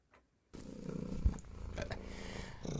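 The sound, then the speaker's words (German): A cat purring: after a brief near-silent moment, a steady low rumbling purr starts and continues without a break to the end, fairly loud and with no voices. “Ja, also ich erkenne, wann meine Miezekatze am Schnurren ist.”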